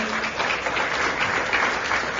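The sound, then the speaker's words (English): An audience gives a quick round of applause, a dense, even wash of many hands clapping at a steady loudness with no voices standing out. “So give them a quick round of applause.”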